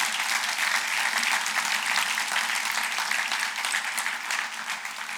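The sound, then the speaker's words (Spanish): An audience applauds at a bilingual Spanish-English church service, a dense continuous patter of many hands. It stays steady and fairly loud, easing slightly toward the end. “Puedes dar un aplauso a Cristo. So let's give a hand to the Lord.”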